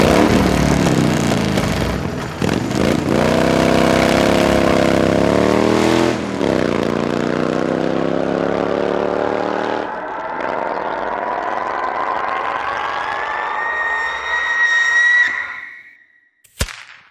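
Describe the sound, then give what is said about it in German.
Spaceship engines start up in a synthetic sound effect for ships launching toward Mars orbit: a loud harmonic whine dips briefly, then climbs steadily in pitch for about fifteen seconds before cutting out, followed by a sharp click. “Nach Überwindung dieses Widerstandes starten Heuber und die Landwirte. Sie erreichen die Marsumlaufbahn.”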